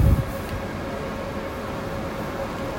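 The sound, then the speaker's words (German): Ambience at Frankfurt main railway station: a low thud at the start, then a steady broad rumble and hiss with a faint sustained hum tone, no voices. “So, ich bin jetzt hier am Frankfurter Hauptbahnhof.”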